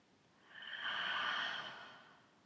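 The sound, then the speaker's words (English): One slow, full breath is drawn in and let out, a soft airy rush that swells gradually to a peak and then fades away, quiet and alone. “So take a nice full in-breath.”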